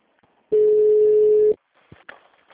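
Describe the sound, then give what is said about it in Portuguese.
A single steady electronic beep from a municipal office's automated telephone system sounds for about one second at a constant mid pitch, loud and alone, after a short quiet lead-in. “Após o sinal, digite o ramal desejado ou aguarde para falar com a telefonista.”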